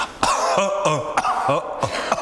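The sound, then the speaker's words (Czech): A person coughing repeatedly: a rapid series of harsh, raspy coughs with throaty voiced tails, fairly loud and steady throughout. “Prostě kašílek, kašel, no je to hezký, no. Patří to k životu.”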